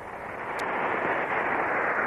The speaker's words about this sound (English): They land and get out of the rocket ship.